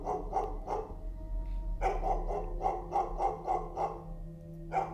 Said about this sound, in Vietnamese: Nghe cái tiếng chó sủa nó chẳng những là tiếp thêm sinh khí mà nó càng làm cho người ta thêm buồn.